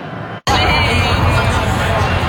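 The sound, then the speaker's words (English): Loud, steady hubbub of a large football crowd at the FIFA Fan Fest, gathered during the World Cup for the Brazil-Morocco match, a dense wash of voices that briefly cuts out, then continues unbroken. “you can see what's going on behind me, just how big the crowd is for Brazil-Morocco. Many Brazil fans out today”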